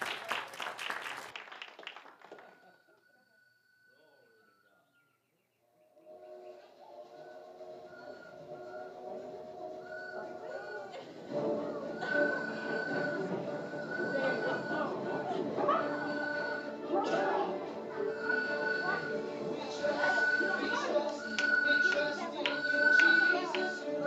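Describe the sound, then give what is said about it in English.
Church audience applauding to welcome people onto the stage during a service, a burst of clapping at the start that fades away within a few seconds. “So let's make them feel welcome. Give them a hand this morning as they come.”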